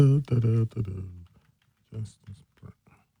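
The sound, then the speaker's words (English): Typing on a computer keyboard to search Google, a short run of quick, light key clicks that follows a brief spoken phrase. “I got to type it.”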